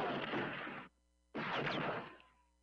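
Two loud gunshot blasts from a gun fired in a film scene, each a broad, roaring burst lasting under a second, separated by a brief silent gap, the second one trailing off more slowly.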